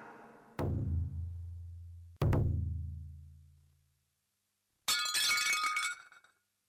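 A plate breaks. Two sharp ringing clinks each fade out slowly, then a brief, bright burst of shattering follows, with nothing else heard.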